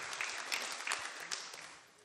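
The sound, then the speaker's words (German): Sparse, faint clapping from a small gathering honours a participant about to recite Latin. A few distinct claps stand out over a thin patter that fades away by the end. “Wow, Applaus hier für den Lateiner.”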